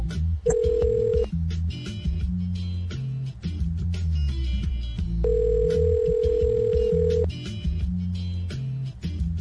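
A telephone call being placed and ringing, heard as two long, steady ring tones separated by a pause, over a continuous low background sound.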